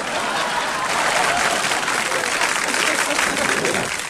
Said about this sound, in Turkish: Alkışlayalım o zaman. Alkışlayalım. Bu zamları yapanları da alkışlayalım.